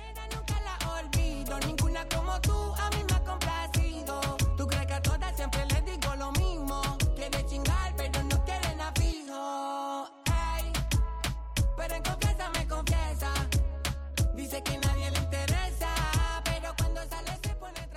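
A Latin pop and rap track plays loudly with a steady, dense beat and punchy low-end hits throughout. Near the middle the music briefly drops out before returning at full force.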